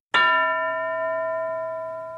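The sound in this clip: A single bell stroke rings out as a cue in a classroom speaking activity, giving a bright metallic tone with steady ringing partials that decays slowly over about two seconds, with no voices.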